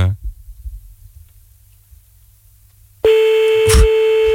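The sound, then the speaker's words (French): A telephone ringing tone on an outgoing call: a few faint low thumps give way to near silence, then a loud, steady mid-pitched tone starts abruptly and holds to the end, with a brief click partway through. “Ça sonne.”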